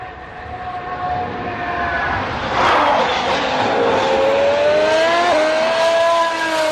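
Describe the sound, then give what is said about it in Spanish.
A Ferrari racing car engine roars at trackside, a high, sharp whine that swells to a loud peak midway and stays loud, with a brief dip in pitch near the end. “Este es el Ferrari. Este es Ferrari. Vale. Es que a pie de pista... El sonido es mucho más fino. A pie de pista suena más elegante. Suena más Ferrari que Renault.”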